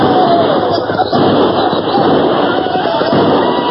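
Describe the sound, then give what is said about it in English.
Blasting powder detonates under a massed attack, a loud, unbroken roar of crackling, thudding blasts that fills the whole stretch without easing. “Then as the Indians closed ranks for a last assault, the earth beneath them exploded.”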